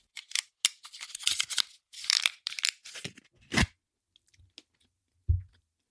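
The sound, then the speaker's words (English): Crunching and chewing of an air-fried mince pie: a run of crisp, crackly bites and mouth noises, then a quieter stretch with a few faint clicks and a single low thump near the end. “I am tickling my taste buds with a little mince pie.”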